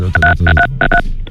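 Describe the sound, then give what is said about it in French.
Touch-tone telephone keys beep in a quick, uneven run of short, bright tones as a number is dialed to call the gendarmes. “moi, je vais appeler les gendarmes, là, tout de suite”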